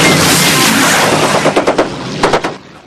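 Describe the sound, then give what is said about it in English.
Machine gun fire from a bomber's ball turret: a few short rapid bursts cut through a dense, loud roar, which then fades away. “fires from the ball turret.”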